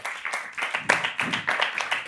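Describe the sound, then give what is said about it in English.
An audience at a film festival claps in quick, rhythmic bursts, a lively run of many claps rising and falling in loudness at a steady pace. “I just wanted to say give it up for yourselves”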